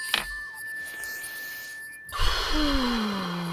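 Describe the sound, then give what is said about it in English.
A deep mindfulness breath comes as a sharp intake and then a soft, breathy rush of air. It is faint, and a steady bell-like ringing tone sounds alongside it. “Let's do a mindfulness breath.”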